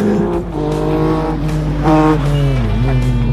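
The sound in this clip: A car repeatedly accelerating and braking through hairpin bends: a loud, continuous engine drone whose harmonic tones hold steady, jump higher briefly, then dip and shift again.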